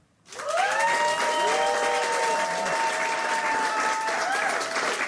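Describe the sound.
Steady audience applause greets a guest musician arriving on a show, beginning abruptly and then holding at an even, full level throughout.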